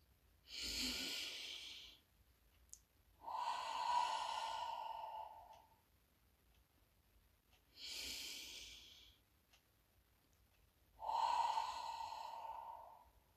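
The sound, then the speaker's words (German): Slow, deep breathing during a short mindfulness exercise: two full in-and-out cycles. Each is an airy inhale followed by a longer, sighing exhale with a faint voiced tone, quiet and alone. “Bringe die Hände vors Herz und atme dreimal tief ein und aus.”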